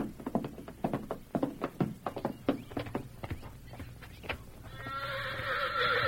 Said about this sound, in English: Hey, that stallion's still acting up in the lean-to. Bring him out here.